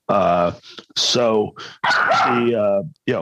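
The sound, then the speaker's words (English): A nine-week-old puppy barks in a few sharp, high-pitched yips with whiny, tonal edges, coming in loud bursts separated by short gaps. “Sorry about the noise again. Oh, no, I love the new pup.”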